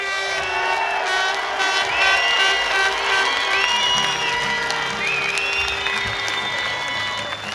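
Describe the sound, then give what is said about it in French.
Sustained audience applause and cheering during a final ovation for a performer at a live event: dense, steady clapping holds level throughout, with high whistle-like tones and shouts riding over it. “Une dernière ovation pour Sébastien d'Estremo. Allez, Sébastien, une dernière fois. Allez, pour le public.”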